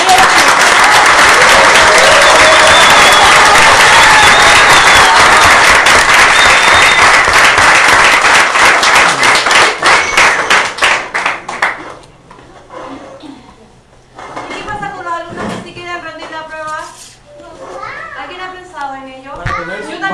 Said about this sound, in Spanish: Y un gran aplauso por los cabros, porque sin lucha no se llega a ninguna parte.